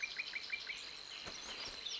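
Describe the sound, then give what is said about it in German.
Thin, high chirps of a Eurasian penduline tit at its nest in a goat willow rising from lakeshore reeds, a quick series of faint, repeated downward-sweeping notes with a fainter high twitter running alongside. “Im Gezweig einer einzeln aus dem Röhricht am Seeufer ragenden Saalweide baut die Beutelmeise ihr kunstvolles Nest.”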